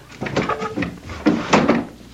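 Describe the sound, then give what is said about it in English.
A nailed-shut window is opened after the nail is pulled out. Two short bursts of wooden knocking and scraping follow each other as the frame is worked loose and slid open. “I pull the nail out of this one and open the window.”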